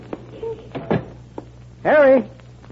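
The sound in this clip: A door opens with a few soft knocks and clunks, then a loud, wavering hinge creak near the end.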